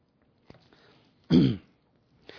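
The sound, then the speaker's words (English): A single harsh throat clear from someone with a tickle in the throat: one loud, rasping burst lasting about a third of a second, set among faint small mouth and breath noises in otherwise quiet surroundings. “Excuse me, I've got a tickle in my throat.”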